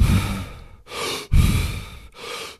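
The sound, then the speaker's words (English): A person demonstrates a hyperventilating breathing exercise, deliberate rather than panicked: four forceful, airy breaths in quick succession, alternating in and out with brief gaps, loud and without talk. “Essentially, what it is hyperventilating, not like panicked hyperventilating, but it sounds a little like this.”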